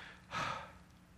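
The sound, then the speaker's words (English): A single exhaled breath given as a demonstration: one soft, airy puff lasting under half a second, quiet and heard alone. “But here he says, man is like a breath, meaning what? Like this.”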